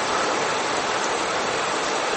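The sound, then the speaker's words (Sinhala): Rain falling in a steady, unbroken hiss of dense drops that holds at an even level for the whole stretch, with no voices over it. “ඔන්න ඇහෙනවා වහින සද්දේ.”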